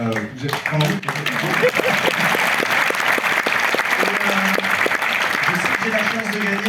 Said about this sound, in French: Donc merci, on peut faire un maximum de bruit pour toute l'équipe qui s'occupe de nous.